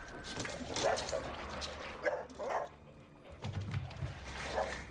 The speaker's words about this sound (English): So now the dog has climbed into the ventilation duct.